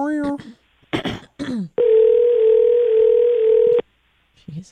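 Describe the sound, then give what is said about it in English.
Telephone dial tone while a call is being made, a steady loud tone of about two seconds that stops abruptly, preceded by brief talk and followed by a short, faint voice. “Like I'm calling Anchorage, Alaska.”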